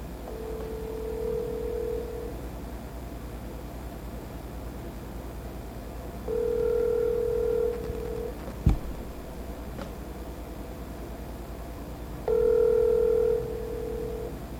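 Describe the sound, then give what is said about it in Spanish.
Telephone tones for an incoming call: three steady, mid-pitched tone bursts, each lasting one to two seconds, separated by long gaps over faint hiss. A sharp click falls near the middle. “está entrando una llamada de nuestro gran amigo y hermano del alma, nuestro venerable Mamoru Bhikkhu.”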